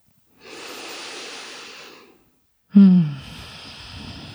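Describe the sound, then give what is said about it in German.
Deep breathing in and out during a guided meditation: a long, steady, airy inhale of about two seconds, a short silence, then a louder exhale that opens with a brief voiced sigh and trails off. “Atme tief ein und aus.”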